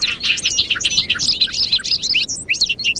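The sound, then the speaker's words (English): Bobolink song in a large hayfield in western New York in early May: a bubbling, tumbling stream of high, metallic chirps and warbles, fairly loud and continuous, with short pauses and no talking. “We're standing in a large hayfield in western New York State, where bobolinks are returning to nest.”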